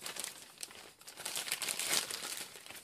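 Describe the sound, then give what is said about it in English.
Paper name slips crinkle and rustle as names are drawn for a prize draw. The sound is soft, continuous and irregular, and fairly faint throughout. “So I'm going to draw for you. I'm going to draw two names.”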